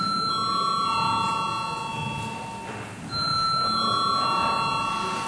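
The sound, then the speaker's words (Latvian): An electric bell rings in a parliament chamber to call members to a vote. It gives a sustained, bright, buzzing tone in two long stretches separated by a brief dip, loud and without talk. “Mēs balsojam lūdzu zvanu.”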